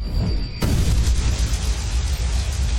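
Deep thunder from a god in a fantasy tabletop role-playing game: a loud, rolling boom breaks in sharply and keeps rumbling heavily through to the end, with no voices.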